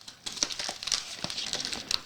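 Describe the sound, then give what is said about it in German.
Crinkly plastic packaging of a cheese snack, which has no zipper, crackles as it is opened by its lift-to-open flap. Fairly soft, continuous crinkling is punctuated by sharper crackles throughout. “Okay, also wir haben außen keinen Zipper. Hier steht Lift to Open. Ja, dann lifte mal.”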